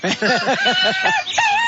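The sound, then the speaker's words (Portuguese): A rooster calls: a rapid run of loud, rising-and-falling clucking notes, then a longer, higher held cry at the end. “pode botar o canto do galo aí. Canto galo? Galo cantando. Galo cantou.”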